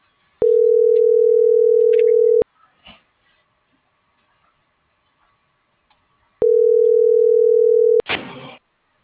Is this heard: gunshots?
no